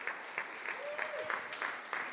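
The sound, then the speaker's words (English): Audience applause at a church birthday gathering: soft, steady clapping with a faintly rhythmic pulse, and a brief voice sound rising over it in the middle. “But can you give them a hand as they come up?”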